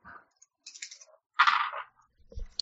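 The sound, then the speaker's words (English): Dice drop and roll across a hard surface during a tabletop role-playing game. There are a few light, scattered clicks and clatters, quiet and brief, with short silences between them. “Oops, lost one of my dice.”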